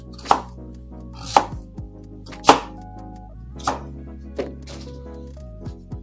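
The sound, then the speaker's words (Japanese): A knife chops a sweet potato in a series of sharp, crisp strikes on a board at an uneven pace, a few strong cuts with some softer taps between them. “ちょっと一旦、さつまいも切ることに集中します。”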